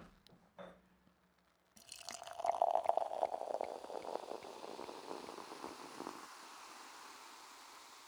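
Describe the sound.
A sparkling drink is poured into a glass, giving a steady fizzing gush that lasts about four seconds and then fades into a faint crackle. A few small clicks come just before the pour.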